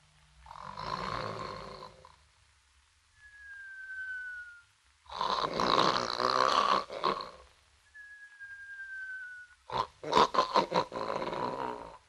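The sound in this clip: A voice performs loud rasping snores, with a thin high whistle sliding downward between the snores, in a repeating snore-and-whistle cycle; the final snores are choppier and more broken.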